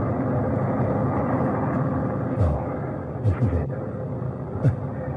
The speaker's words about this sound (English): 7, 6, 5, 4, 3, 2, 1. Ignition. God ride beside you, John Glenn.